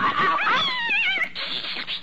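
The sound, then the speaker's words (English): A cat on an office desk gives a long, wavering meow whose pitch swoops up and down, loud and alone, then trails into a rough, noisy stretch. “Here, you cat, you!”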